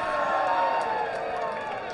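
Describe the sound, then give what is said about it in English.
Baseball stadium crowd cheering and applauding after a foul ball drops just below the broadcast booth and a young fan grabs the souvenir. A steady, loud roar holds for two seconds. “And the crowd approves as that souvenir is settled.”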